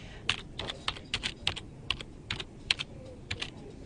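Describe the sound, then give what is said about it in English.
Typing on a computer keyboard while entering search terms: many quiet, irregular key clicks and taps with no talk. “But now I've just typed in YouTube, which goes a whole range of posted video shorts, very popular with people.”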